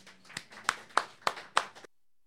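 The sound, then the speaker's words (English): Faint, sparse clapping for a performer about to play and sing: a few distinct, fairly evenly spaced claps that stop abruptly into silence, with no crowd roar behind them. “Let's give Wayne Martin a big hand.”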